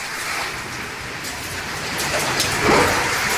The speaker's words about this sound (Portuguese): Mais chuva. Esse é o som de São Paulo agora.